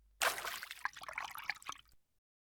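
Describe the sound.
Water poured over a person to rinse them off: one continuous splashing pour of about two seconds. It opens with a loud gush, then thins into trickling and dribbling before stopping, with no voices.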